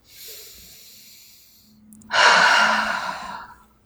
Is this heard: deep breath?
yes

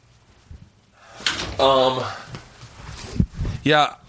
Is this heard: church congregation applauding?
no

